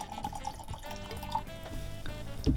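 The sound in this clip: 2022 Château Mercian Mariko Pinot Noir rosé wine poured into a glass, a continuous splashing, gurgling trickle of liquid at moderate level.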